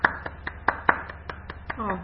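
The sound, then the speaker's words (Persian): Classroom applause after the teacher asks the students to clap for themselves: nine sharp hand claps in a steady, quick rhythm, ending with a voice. “خودتون رو تشویق کنید.”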